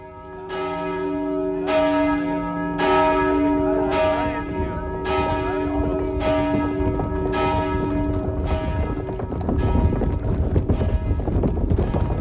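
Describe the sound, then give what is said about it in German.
Church bells ring as horses pull away, the steady strikes repeating many times with long ringing tones, while clip-clopping hooves and rougher noise grow louder toward the end. “Als die Pferde sich ins Geschirr stemmten, begannen die Glocken zu läuten.”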